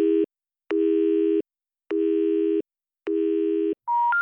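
Telephone error tone for an unrecognized dialed number: a few low, buzzing tone bursts repeat with short gaps, then a higher pure tone steps upward at the end.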